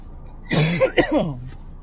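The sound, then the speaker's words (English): A cough mixed with throat clearing, a few harsh, raspy bursts packed closely together, clear and on its own with no talking. “it should be very alarming every time you hear me cough, you know, because I'm spreading fucking viruses over here and shit.”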